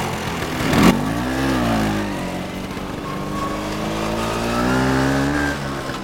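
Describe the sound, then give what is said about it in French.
A scooter speeds along a road between Rome and Ostia, its engine holding a steady, loud mid-pitched drone with a brief sharp burst near the start and a pitch that climbs and then levels off. “Judith et François roulent en scooter à toute allure”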